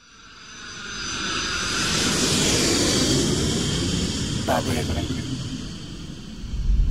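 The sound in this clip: An airplane landing at Montevideo: a broad engine roar swells over the first seconds, holds steady and loud, then eases into a rougher rumble with a final surge at the end.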